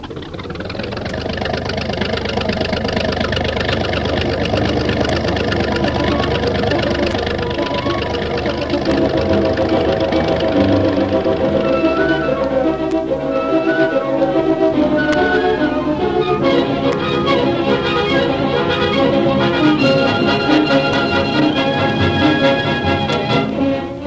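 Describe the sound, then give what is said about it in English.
Engines of a tank squadron rolling forward: a loud, continuous mechanical drone with a knocking, rumbling texture that stays steady throughout, with no talk over it. “Tank squadron forward.”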